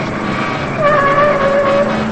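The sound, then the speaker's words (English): A car speeds through back alleys during a chase, its engine holding a steady drone with a thin whining tone that grows louder about a third of the way in and stays strong to the end. “They drive down some back alleys and almost hit cars as they emerge.”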